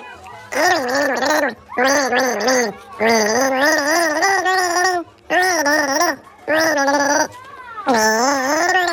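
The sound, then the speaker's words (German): A person gargles a mouthful of water with the head tipped back, bubbling out the melody of the children's song Hänschen klein. The loud, gurgling tones rise and fall in several sung phrases separated by short pauses. “Du nimmst einen Schluck Wasser in den Mund, legst den Kopf in den Nacken und versuchst, ein bekanntes Lied zu gurgeln.”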